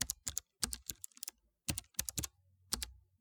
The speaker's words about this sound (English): Let me go back here and continue to type.